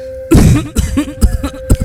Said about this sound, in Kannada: ಏನೀ ಆಳದ ಕೆಮ್ಮು ನಿಲ್ತಾನೆ ಇಲ್ವಲ್ಲಪ್ಪ?